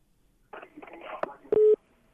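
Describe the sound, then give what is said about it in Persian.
Telephone signal tone as a call drops on a radio phone-in: a short burst of garbled line noise, then one loud, steady, mid-pitched beep that stops abruptly. “تلفن قطع شد.”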